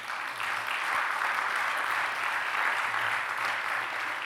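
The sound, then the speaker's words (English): Audience applause fills the whole stretch as a dense, even roar of clapping hands, loud and unbroken from start to finish with no voices standing out. “I know you're all clapping for her.”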